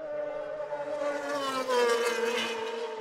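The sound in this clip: Racing cars speed past on a road circuit during the opening lap, their high whining engines swelling to a peak and easing off as the pitch drops slightly.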